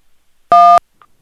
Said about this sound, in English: I like how it was beeping. It was like, it was, it's like an old school answering machine